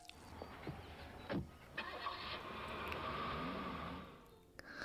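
A car engine starts, a few faint clicks and thumps before the motor catches and runs steadily for a couple of seconds, then settles down; quiet overall.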